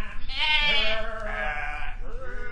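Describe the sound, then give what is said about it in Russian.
A flock of sheep bleats while being driven along a village street: loud, quavering bleats overlap one another and run on almost continuously. “Овцы двинулись за ним вдоль улицы.”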